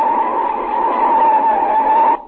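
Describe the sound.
A loud, steady tyre screech as a car brakes hard and nearly hits another car, holding one high pitch for about two seconds before cutting off abruptly.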